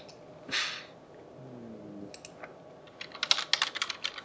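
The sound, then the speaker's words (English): Faint typing on a computer keyboard: a few scattered key clicks, then a quick, uneven run of many keystrokes. A soft breathy sound comes earlier. “I typed that out so you would you could keep talking.”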